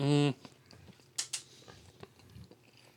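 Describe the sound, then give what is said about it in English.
Crunchy chewing of crinkle-cut fries from a fried-chicken chain, opening with a short voiced hum, then faint bites and two sharper crunches close together midway. “it looks like they've gone over to the Burger King crinkle fries at the Kentucky Fried Chicken. A lot of ASMR on this one.”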